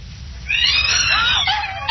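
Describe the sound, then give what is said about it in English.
A startled cat lets out a loud, drawn-out yowl, starting high and strained, then sliding lower in pitch before a brief final cry, over a faint low background hum. “You ever seen the expression on a cat's face when it's startled? Well, watch.”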